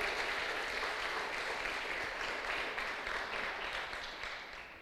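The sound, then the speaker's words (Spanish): A church audience applauding during a sermon: steady, dense clapping that is fairly faint and even, then thins and fades slightly toward the end. “Denle un fuerte aplauso al que vive por los siglos de los siglos.”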